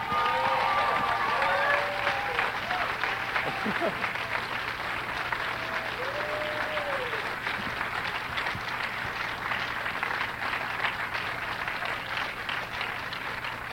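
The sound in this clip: An audience at the Museum of the Moving Image in New York applauds to welcome Academy Award-winning actress Halle Berry. Thick, even clapping runs throughout, with whoops and whistles near the start.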